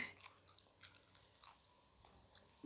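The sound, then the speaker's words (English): Faint chewing and crunching of a tough Korean snack, eaten with the mouth open: soft, irregular bites and mashing sounds recur quietly throughout, with no talking. “the reason I'm chewing with my mouth open because it's tough. It's that tough.”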